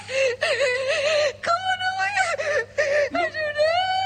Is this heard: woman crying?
yes